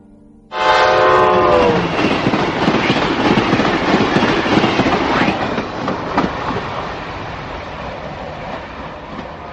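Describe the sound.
A train bursts in suddenly with a loud horn blast lasting over a second, followed by a steady clattering, rattling rumble of wheels on rails that slowly grows quieter.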